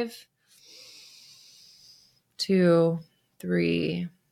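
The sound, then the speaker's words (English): A deep breath taken during a guided breathing exercise for managing anxiety: a slow, airy inhale of about two seconds, followed by two short voiced sounds. “Good. We're going to do one more time. Big inhale for”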